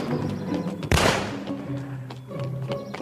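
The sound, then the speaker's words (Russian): A pistol fired by a man in a suit on a dark street gives one sudden, sharp, loud crack, standing out above a quieter sustained tonal background that continues around it. “Мужчина в костюме стреляет.”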